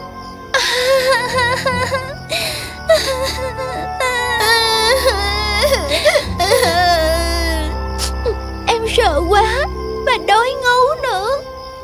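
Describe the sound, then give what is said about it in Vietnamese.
Young girls cry as they sit down in the grass, worn out after walking all day in a wild berry forest. The loud, wavering wails and sobs rise and fall in pitch and come in uneven bursts. “Zoe và Chloe đã mệt rã rời sau khi đi bộ cả ngày và các cô bé ngồi thụp lên cỏ bắt đầu khóc lóc.”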